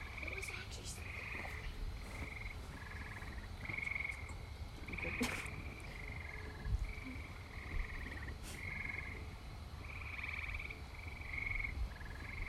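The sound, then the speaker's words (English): Tree frogs croak in a loud chorus, with many short, buzzy, mid-pitched calls repeating in a steady pulsing rhythm over a low background hum, and no talk. “Tree frogs trying to make babies over there. They're so loud.”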